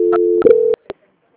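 Telephone call-transfer tones: a steady beep, then a second sustained tone, then a short blip, followed by silence.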